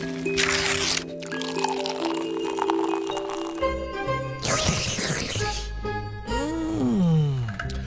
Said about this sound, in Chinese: 好香啊！嗯，真好吃 啊！我刚买的方便面，你怎么就吃上了？